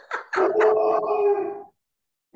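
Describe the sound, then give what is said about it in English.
A dog barks, opening with a couple of quick yelps that run into one long, wavering howl-like bark. Silence follows, then another bark starts right at the end. No talking is heard. “That's my dog barking.”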